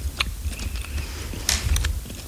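Gummy candy is chewed close up during an ASMR session, with soft sticky smacks and a few sharper wet clicks over a steady, moderate murmur of mouth noise.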